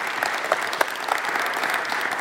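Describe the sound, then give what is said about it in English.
Audience applause welcoming a speaker to the stage, with dense, steady clapping from many hands that holds at an even level through the whole stretch. “Let's give Rick a warm gateway welcome.”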